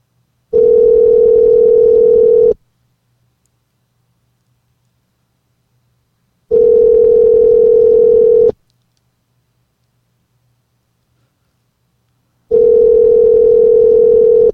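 Ringback tone of an outgoing telephone call: three steady, mid-pitched tones of about two seconds each, separated by long silences in an even cadence.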